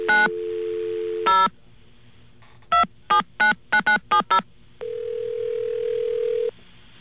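Telephone line while calling an operator: a short tone and a brief beep, then a quick run of touch-tone dialing beeps, followed by a long steady line tone, with no talk.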